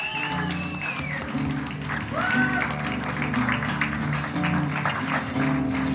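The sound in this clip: Audience applause for a performer, a steady dense wash of clapping that lasts the whole stretch, with tonal music and some voices underneath.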